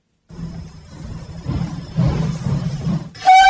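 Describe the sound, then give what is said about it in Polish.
Low, steady rumble of a heritage passenger train with carriages from the 1920s and 1930s running in Poland. The rolling noise swells gradually, and a brief bright tonal sound cuts in at the very end. “Wśród zabytkowych składów kursujących z Chabówki do Mszany Dolnej i Kasiny Wielkiej oraz z Nowego Sącza do Chabówki znalazły się m.in. wagony z lat 20. czy 30. ubiegłego wieku.”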